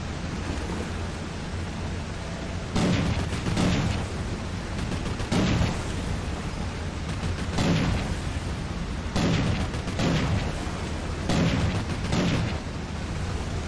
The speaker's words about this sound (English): Press the Use Weapon control to fire. You can also shoot from binocular view, which can help you aim more accurately.